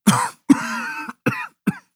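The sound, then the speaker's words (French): A man with a sore throat and tonsillitis coughs on request: four harsh, rough bursts with short silences between them, the second longer and more voiced than the rest. “Toussez.”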